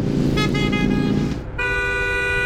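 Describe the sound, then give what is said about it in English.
A car horn honks in a couple of sustained, buzzy blasts, the second steadier and brighter, loud over a continuous low rumble. “Do you really have to honk like an idiot every time he passes you?”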